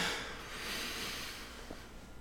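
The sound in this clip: Slow inhale during a breathing exercise, drawn deep enough to work the abdominal muscles: a soft, steady airy hiss lasting about two seconds, faint and even, with no voices.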